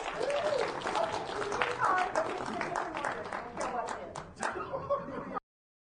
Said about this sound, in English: That was great. Give him a big hand.